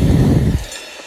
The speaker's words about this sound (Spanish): son las 5 de la mañana estoy montado en el tren.